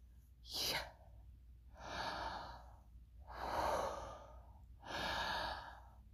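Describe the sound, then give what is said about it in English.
Breathing in and out in a deliberate inhale-exhale pattern, four airy breaths in all: a short, sharp one, then three longer, soft breaths. Quiet and without words. “it's the breath of life. Literally, the inhale and exhale pattern of YHWH is”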